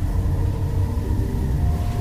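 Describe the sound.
A massive sandstorm roars as a loud, steady low rumble, blasting dust, sand and debris without a break from start to end.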